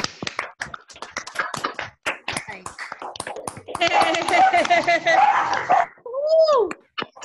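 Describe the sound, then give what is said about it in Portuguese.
Sharp, uneven claps from a group open the sequence, then dogs break into loud, overlapping barks and yelps, ending with a drawn-out whining bark that rises and falls in pitch. “Cachorrada vai latir agora, mas não tem problema não.”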